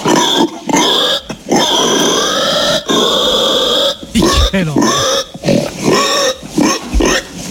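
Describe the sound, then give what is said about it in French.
A human voice imitates a pig squealing as it is slaughtered, with loud, shrill, sustained squeals broken by short gasps and a few grunting bursts toward the end. “Ça c'est la mort du cochon ? Oui, ça c'est tout à fait la mort du cochon.”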